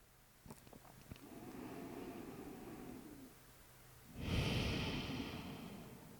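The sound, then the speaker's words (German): Deep breathing in and out: a long, soft airy inhale is followed by a louder, rushing exhale, both slow and steady with no talking. “Tief ein- und ausatmen.”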